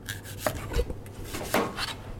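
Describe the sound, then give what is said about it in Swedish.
Sweet potato being peeled in a preschool kitchen: a run of soft scraping and rubbing strokes with a few sharper knocks, fairly quiet and with no voices. “Jag skalar sötpotatis eh, och den ska in i ugnen och rostas”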